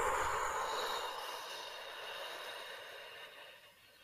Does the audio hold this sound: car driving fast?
no

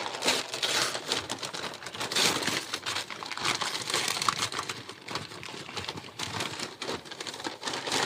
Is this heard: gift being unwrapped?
yes

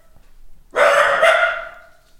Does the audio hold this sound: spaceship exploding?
no

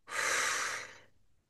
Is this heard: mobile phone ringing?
no

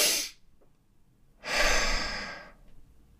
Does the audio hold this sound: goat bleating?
no

